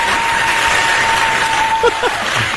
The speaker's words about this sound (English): listen to the audience. Listen to them.